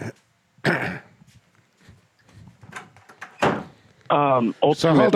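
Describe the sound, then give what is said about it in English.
An office door is closed, giving a few dull thumps and brief scrapes between quiet gaps. A voice joins near the end. “I'm just going to close my office door here for a second.”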